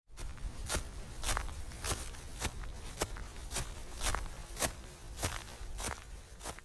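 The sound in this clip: Footsteps walk across grass in a quiet, steady rhythm, many evenly spaced soft crunching steps with no voices between them.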